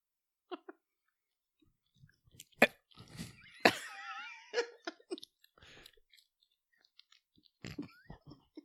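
Chewing of gluten-free baked goods with nuts: faint, scattered crunches and wet mouth sounds come in short irregular bursts, with a brief murmured vocal sound partway through.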